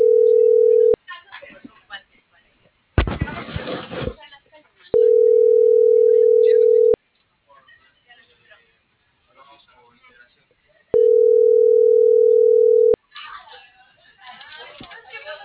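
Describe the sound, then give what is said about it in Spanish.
A telephone line tone sounds as three steady, even-pitched bursts of about two seconds each, separated by long pauses. The gaps are filled with faint rustling, handling noise and one short, harsh noisy burst. “Ah, están marcando.”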